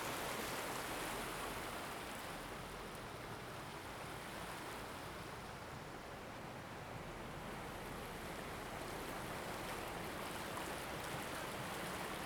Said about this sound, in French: Je me trouve au bord de l'eau.